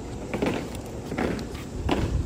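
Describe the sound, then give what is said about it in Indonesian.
The marching feet of a flag-raising squad sound on an outdoor field at an embassy residence in hot sun, as a few heavy, evenly spaced stamps over a steady wash of background noise. “Panas terik mengiringi derap langkah pasukan pengibar bendera atau Paskibra di lapangan Wisma Indonesia, rumah dinas Duta Besar RI di Washington, D.C.”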